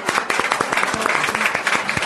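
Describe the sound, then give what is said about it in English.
A crowd applauding at Egg Harbor Cafe, with many hands clapping in a lively patter and individual claps standing out from the loud, continuous wash. “Give yourselves a round of applause for showing up here at Egg Harbor Cafe.”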